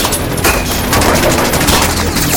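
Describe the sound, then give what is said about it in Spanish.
Heavy gunfire in a Spanish-language audio drama, a dense, continuous volley of overlapping shots coming from all sides, loud and unbroken throughout. “vienen esos disparos? ¡De todos lados!”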